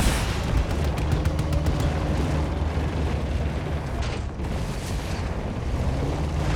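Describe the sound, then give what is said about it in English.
Shotgun fire and blasts in a video game battle: a dense, continuous barrage of booming shots and explosions, with a quick run of sharp rapid-fire cracks near the start. “I hit him like six times with a shotgun. It did nothing.”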